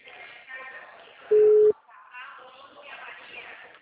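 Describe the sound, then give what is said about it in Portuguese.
A single short telephone tone sounds as a call is placed. The brief, steady mid-pitched beep stands out clearly amid people talking before and after it. “Estou ligando.”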